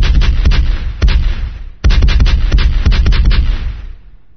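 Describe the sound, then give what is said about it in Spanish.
Cannon fire from a Spanish galley's guns: loud, rapid booms and cracks pile into a dense barrage. A short lull comes before a second heavy burst, then the sound fades out. “La galera se colocó a distancia de tiro. Los cañones escupían fuego.”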